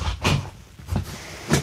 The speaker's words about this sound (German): Du ruckelst hier mit dem Stuhl rum. Ich rucke hier mit dem Stuhl. Ich will den höher machen, den Stuhl. Es geht nicht.